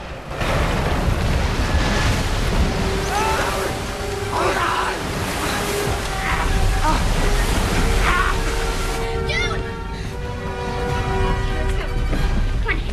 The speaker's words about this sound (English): Water cascades over the wheel.